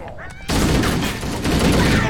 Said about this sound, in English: that's the sound. The sound of a battle rifle.